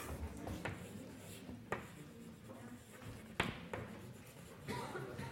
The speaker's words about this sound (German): Schreiben wir drunter klar.